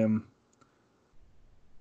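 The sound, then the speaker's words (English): A computer mouse gives a quick, faint double click after a brief voice at the start, with little else but quiet background. “I'll click on his IMDb real quick.”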